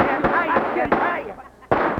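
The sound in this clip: Gunshots fired from a gun in a radio drama: a few sharp, loud cracks break through ongoing voices, spaced unevenly across the scene.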